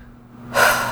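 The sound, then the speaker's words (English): A single deep, breathy inhale through the nose and mouth during an emotional tapping exercise. It starts midway after near-silence and stays loud and airy to the end, with no talk. “Deep breath.”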